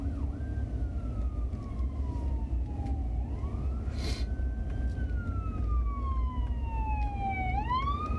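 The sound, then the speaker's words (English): An ambulance siren wails as it pulls up, its tone gliding slowly up and down in long sweeps. It is moderately loud and steady over a low background rumble. “So yeah, I had an ambulance pull up here.”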